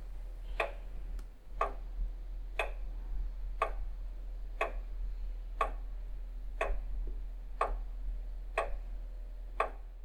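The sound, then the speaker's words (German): A weight-driven lantern clock, formerly kept in a church tower and wound every three days, ticks steadily about once per second, with crisp, even clicks over a low, constant hum. “Trotzdem musste man sie alle drei Tage aufziehen. Bis 1861 befand sich diese Uhr im Stephansturm.”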